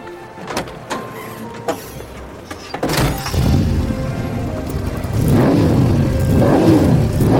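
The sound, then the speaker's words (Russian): Car engine revving, a few loud swelling revs that rise and fall over steady engine noise, after several sharp clicks and knocks at the start. “Классная, блин, тачка.”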